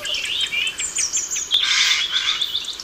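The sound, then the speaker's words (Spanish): A Eurasian jay, a corvid, calls at dusk in Extremadura: a run of high, thin chirps, then a harsher, noisier burst midway, fairly faint over a quiet background. “¿Esto es un grajo? Un arrendajo. Sí, es un córvido.”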